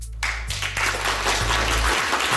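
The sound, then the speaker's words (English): Applause from a viewing party at the University of Toronto: dense, steady clapping that stays loud and even for the whole stretch, with no voices standing out. “that's the applause from a viewing party at the University of Toronto”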